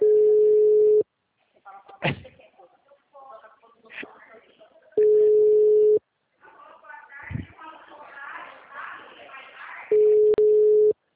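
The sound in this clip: Ringback tones of an unanswered telephone call sound three times, each a steady one-second beep spaced about five seconds apart, with someone talking between them.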